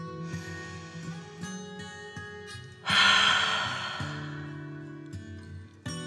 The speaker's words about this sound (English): One last breath in and feel your tummy getting bigger and out through your mouth.